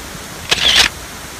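A single camera shutter fires as a photo is taken: one brief, crisp mechanical click-whir lasting under half a second, standing alone against a quiet background.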